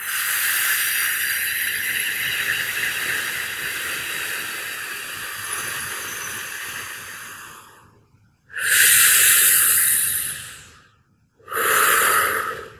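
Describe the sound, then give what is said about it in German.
Deep, slow breathing: a long, hissing inhale lasting about eight seconds, then two shorter, forceful breathy exhales separated by a pause. Loud and close, with no talking. “Und das macht natürlich Geräusche und das klingt dann ungefähr so, wenn du die Luft einatmest. Und wieder ausatmen.”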